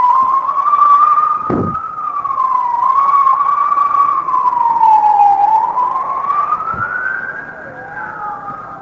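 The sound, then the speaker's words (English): An emergency vehicle siren wails loudly in a slow, continuous rise and fall of pitch and holds for the full stretch, with no clear talk over it. “That's an emergency vehicle. If you don't have an emergency, always respect those vehicles. Emergency vehicles.”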